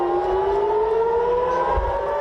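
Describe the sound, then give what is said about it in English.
An air raid siren wails during missile attacks in Israel, a loud, sustained tone that climbs slowly and steadily in pitch with no talk over it. “Another night of sirens as Israel and Iran attack each other.”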